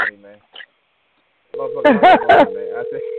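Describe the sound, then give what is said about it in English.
A steady, single-pitch telephone tone sounds on a call to a wrong number. It begins after a moment of silence and drones on unchanged while someone talks loudly over it. “I dialed the wrong goddamn number.”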